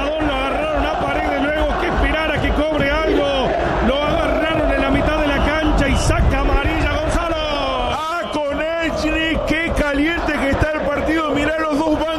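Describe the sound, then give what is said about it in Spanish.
Boca Juniors fans chant and sing in the stadium in Rosario, the Gigante de Arroyito, a continuous mass of voices carrying a wavering, rhythmic melody with no break. “Se levanta el público en Rosario, no es la Bombonera, es el gigante de Arroyito. Esto es la hinchada de Boca que canta en los micrófonos de Cadena 3 Argentina.”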